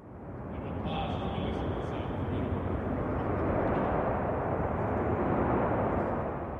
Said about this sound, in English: Almost symbolically, Newman's speech was briefly cut off by the sounds of nearby aircraft on base.